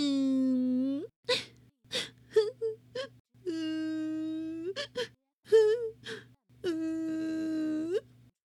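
A young child cries in a toilet with long, drawn-out wails broken by sharp sobbing gasps and whimpers, rising and falling in uneven bursts.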